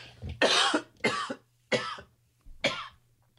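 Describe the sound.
A person coughs four times in short, harsh bursts with brief pauses between them, after a fly went down their throat.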